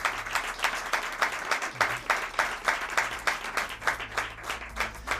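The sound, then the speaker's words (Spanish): Applause from a studio audience: many hands clapping together with a steady, regular pulse, fairly soft and even throughout, with no voices. “de Radio Rioja, a quienes quería dar las gracias y un fuerte aplauso y abrazo”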